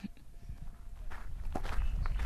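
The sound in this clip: Footsteps of walkers on a hiking trail, a steady run of crunching steps that grows slightly louder toward the end.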